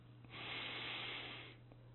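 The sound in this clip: One slow, deep inhalation during a guided breathing exercise, a soft, airy draw of breath lasting about a second over a faint low hum.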